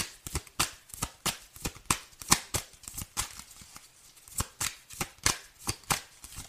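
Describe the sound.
Tarot cards being shuffled before a card is drawn in a reading: many quick, crisp riffling flicks in an uneven rhythm, with no voices over them.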